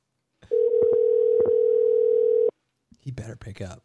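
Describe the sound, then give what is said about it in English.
Phone ringback tone heard while placing a call: a single steady, low, humming tone held for about two seconds, then cut off. After a short pause, people start talking. “I'm calling Kyle.”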